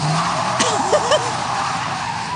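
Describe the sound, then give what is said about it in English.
Car tires squeal in a short skid as a passenger grabs the wheel of the moving car, a brief wavering screech over steady road noise. “And he's driving, and Tony just like grabs the wheel and crashes the car.”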